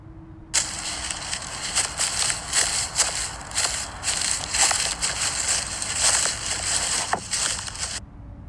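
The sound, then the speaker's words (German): Footsteps crunch through a forest over dry autumn leaves, a dense run of rustling with many irregular crackles that starts abruptly and stops just as suddenly near the end, with no voices. “Das waren Geräusche, wie ich durch den Wald gehe. Vor allem im Herbst kommt Laub oft im Wald vor.”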